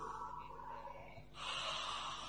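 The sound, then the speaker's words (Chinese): A person sniffs an imagined rose, breathing in through the nose. After a quiet moment, one long, soft nasal inhale rises and holds steadily to the end. “来，手伸起来，放在你的鼻子这边，预备，闻，”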